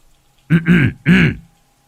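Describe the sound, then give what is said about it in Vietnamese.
A man clears his throat: a few gruff, voiced rasping bursts in quick succession, loud and alone against near silence. “Anh sợ có trộm, liền hắng giọng.”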